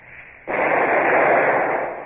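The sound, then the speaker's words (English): A single warning shot from number two gun of a ship's cannon, fired across the bows of a ship flying French colours: one sudden heavy blast that swells into a loud, sustained roar and fades only slightly. “Well, fire a shot across her bows. Number two gun. A single shot across the bows. Fire!”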